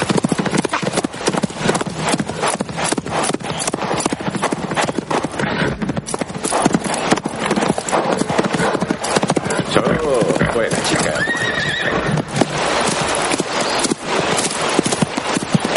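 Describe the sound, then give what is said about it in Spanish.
Horses gallop in a medieval setting, a rider on a black steed chasing a riderless mare: a rapid, dense, continuous clatter of hoofbeats that stays loud throughout. “Después, atiza las riendas de su negro corcel y cabalga para atrapar al equino sin aparente dueño. Llega hacia la yegua, que levanta su larga cola y galopa rápido junto a ella para darle alcance.”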